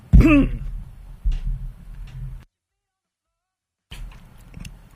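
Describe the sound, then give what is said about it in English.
A throat is cleared with a harsh, rasping burst at the start, followed by lower muffled throat noises, a stretch of silence and a faint rumble at the end. “Oh, God. Something in my throat there.”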